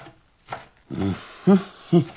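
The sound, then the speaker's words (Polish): A knife chops food in a few dull, thudding strikes at an uneven pace, the later ones louder and sharper, with no talking. “Prawda, jak ja kroję.”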